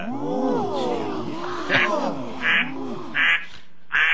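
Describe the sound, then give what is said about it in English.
A cell phone ringtone of duck-call quacking gives a run of warbling, nasal quacks with sliding pitch, punctuated by several short, bright bursts. “Now let's hear the cell phone. Nothing screams Hoosier more than having a duck call on your cell phone.”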